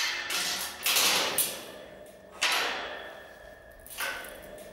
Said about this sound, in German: Und immer gut abschließen, ganz wichtig, das ist die Lebensversicherung.